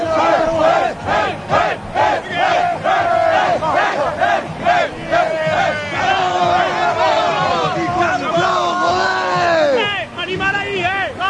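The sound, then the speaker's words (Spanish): Gran Canaria basketball players shouting together in their team huddle after a Liga Endesa win over Valencia, with a run of short rhythmic group shouts at first, then a longer, rising chorus of cheering voices. “Este es el corrillo, dejó solo el sonido de los hombres del Granca.”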